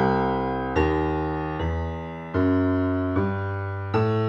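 Piano left-hand bass line leading into C from the B a half step below: six evenly spaced low notes, each struck firmly and left to ring and fade, played alone.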